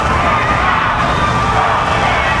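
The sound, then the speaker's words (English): A crowd boos and chants at an election-season political protest, a dense, loud, continuous roar of many voices with no clear breaks. “A chorus of boos from the crowd below, some chanting respect her wish and vote him out.”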